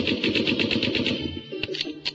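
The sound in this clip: Machine-gun fire sound effect in a hip-hop track: a rapid, evenly spaced rattle of shots lasting just over a second, followed by a few separate shots.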